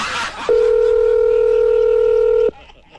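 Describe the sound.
A telephone dial tone sounds while a call is being placed. A single steady, loud electronic tone holds for about two seconds, then cuts off abruptly, with brief noise before and after it.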